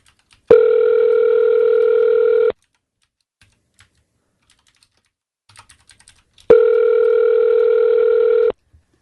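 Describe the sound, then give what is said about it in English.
Telephone ringback tone on a call to a hotel, waiting to be answered: two long, steady electronic rings of about two seconds each, separated by a long silence with a few faint clicks. “Come on, pick up. They're not going to pick up.”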